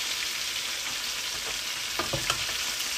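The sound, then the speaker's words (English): Chicken frying in a pan as it turns crispy, a steady hiss of sizzling oil with a few sharper pops and crackles near the end. “before the chicken turns out burnt, let's turn it. Ooh, it's getting nice and crispy.”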